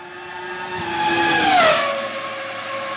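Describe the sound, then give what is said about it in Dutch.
A Ferrari V10 Formula 1 engine from the 1990s to 2005 screams with a high-pitched harmonic whine. It swells in loudness, then drops sharply in pitch as the car passes, and is heard alone. “Maar daarvoor had je de V10. Die was eigenlijk een beetje... kwam op in de jaren 90 gemeengemoed tot en met 2005. Dit is ook de Ferrari. Die klinkt zo uit de gloriejaren van Schumacher.”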